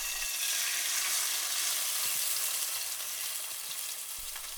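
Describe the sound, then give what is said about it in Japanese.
Meat lightly dusted with flour sizzles as it fries in a pan, a soft, steady hiss with faint crackles and no talk. “だからこうやってお肉にうっすら粉がついている状態でフライパンに入れます。”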